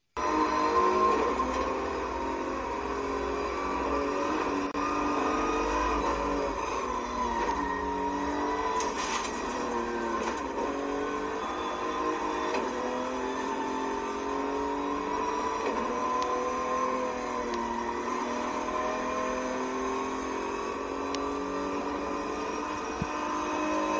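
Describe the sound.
A racing car engine is heard from inside the cockpit: a continuous, buzzing drone whose pitch repeatedly climbs and drops as the car accelerates and shifts.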